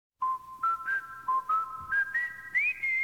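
Whistled opening of a rock and roll song: many short, clear notes forming a melody that mostly climbs in pitch, fairly quiet, with soft low accompaniment beneath and no talk.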